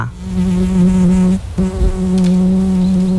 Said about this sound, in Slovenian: Ste kdaj opazovali kakšno muho, ki je sedla v vašo bližino in si začela drgniti sprednji nožici eno ob drugo, da je izgledalo, kot da si zadovoljno mane roke?